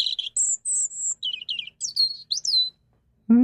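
A European robin sings early in the morning: a quiet string of high, sweet, varied chirps and trills in short, quick phrases, alone without talk.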